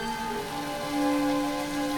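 Rain falls steadily outside in a park, a continuous, fairly loud hiss that holds evenly throughout.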